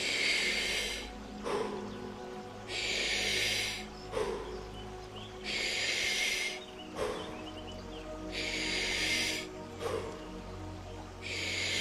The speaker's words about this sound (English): The first breath in. Big breath out.